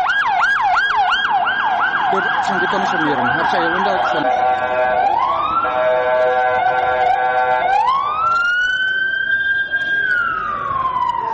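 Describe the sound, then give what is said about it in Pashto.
Ambulance and police car sirens heading to the scene of an explosion: a fast-cycling yelp, then long rising and holding wails from more than one siren, loud over steady road rumble. “سیمې ته امبولانسونه او د پولیسو ګڼ موټر ور روانو”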